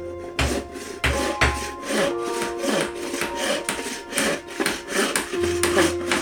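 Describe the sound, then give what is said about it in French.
Wooden planks are sawn to build a huge boat. Many rhythmic, rasping back-and-forth strokes continue steadily throughout, with no talk. “Noé coupe des planches de bois et les cloue solidement pour fabriquer un bateau gigantesque.”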